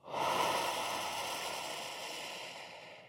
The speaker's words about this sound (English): And now breathe out for 4.